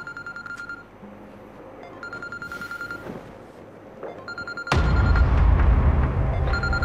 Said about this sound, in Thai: นายใหญ่โทรมาครับ